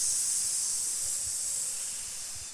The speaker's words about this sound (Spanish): También, ¿verdad?, en el capítulo 3 de Génesis, la serpiente se puede escuchar.